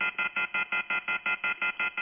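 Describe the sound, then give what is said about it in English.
An off-the-hook telephone tone from a handset left unhung: a rapid, steady string of short, bright beeping pulses repeating evenly throughout. “Would someone please hang that phone up?”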